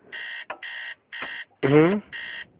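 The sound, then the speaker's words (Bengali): An electronic clock alarm goes off at two o'clock at night with bright, evenly spaced beeps about twice a second, and a short vocal sound cuts into the pattern partway through. “এই ঘড়িতে একটু অন্য ঘরে রেখে এসো না, কেমন বাজে একটা শব্দ, ঠিক রাত দুটোর সময় ঘুমটা ভেঙে যায়।”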